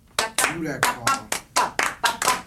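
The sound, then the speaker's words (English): Group hand clapping in a live music therapy session, eight sharp claps in a steady, even dance rhythm, each one crisp and loud. “clap. Everybody, this is a dance. And you can do it with your hands and feet.”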